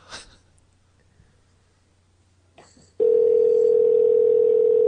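A telephone dial tone for a phone call sounds as a loud, steady, unwavering hum that starts suddenly partway through, after a few faint handling noises and a soft breath.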